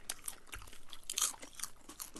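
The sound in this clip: Soft crunching and chewing as someone eats original flavor bacon salt, a run of many small, faint, crisp bites and chews with no talk over them.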